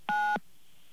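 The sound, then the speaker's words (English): A single touch-tone keypad beep for the digit 9, pressed to accept a collect call: one short, clear dual-pitched tone lasting about a third of a second, heard alone. “To accept the call, please dial 9 now.”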